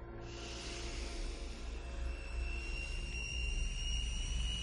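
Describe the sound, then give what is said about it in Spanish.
Helicopter rotors and engines spinning up as squadrons take off in a science-fiction film, a steady deep drone with a thin high whine that gradually grows louder. “Los rotores de los helicópteros se ponen en marcha y las escuadrillas levantan el vuelo.”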